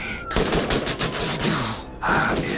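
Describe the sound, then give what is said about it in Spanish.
Rapid AR-15 rifle gunfire: many loud, sharp shots fire in a fast, even rhythm, then stop for a moment before more loud noise follows. “AR-15. Escuchen ese ritmo.”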